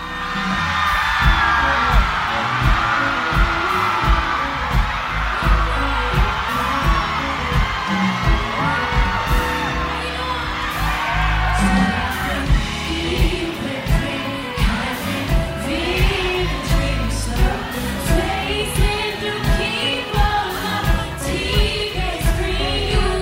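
A festival concert audience led by a singer cheers and whoops over loud live music with a steady, pounding bass beat running throughout.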